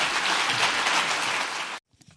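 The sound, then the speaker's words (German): Audience applause at an East German economic forum: dense, steady clapping that holds for under two seconds, then cuts off abruptly into near silence. “Auch dafür bekommt Friedrich Merz in Bad Saro viel Applaus.”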